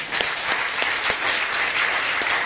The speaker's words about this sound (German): So, wir geben einen Applaus.